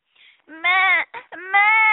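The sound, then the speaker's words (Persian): A young goat kid bleats and cries in two drawn-out, wavering, high-pitched wails separated by short broken sobs. “ترسید و معمع کرد و گریه کرد.”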